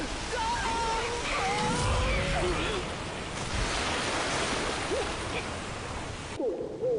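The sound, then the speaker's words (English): Rushing roar of a giant ocean wave bearing down on a small raft: a broad, continuous wash of surf noise holding steady for several seconds, with voices faintly mixed in. “A giant wave bears down on them.”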